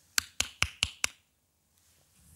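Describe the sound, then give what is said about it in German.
Five sharp, evenly spaced knocks on a door land in quick succession, each with a short ringing decay. Quiet follows after the last knock. “klopfte es an die Tür.”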